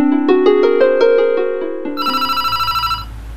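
A telephone rings with an electronic ringtone: a loud, bright melodic phrase of stepped tones, then a rapid warbling trill, with no voices.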